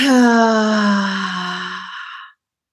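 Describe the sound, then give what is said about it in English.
A long, voiced sighing exhale through the mouth during a relaxation breathing exercise, starting full and slowly fading and dropping slightly in pitch before stopping, followed by silence. “And we'll do three cleansing breaths. Nice deep breath in through the nose. Out through the mouth, let it all go.”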